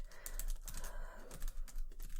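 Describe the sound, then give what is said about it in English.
Typing on a computer keyboard at an airport check-in desk: a quiet, continuous run of soft, irregular key taps and clicks, with no voices. “I will also take note of that in the computer as well”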